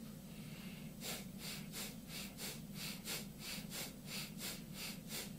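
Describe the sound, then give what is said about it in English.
Mild Bhastrika yogic breathing, with forceful inhales and exhales driven from the stomach rather than the chest. After about a second of quiet, many quick, even breath bursts follow in a steady rhythm over a low constant hum. “And now the last round is the Bhastrika, mild Bhastrika. And it's like this.”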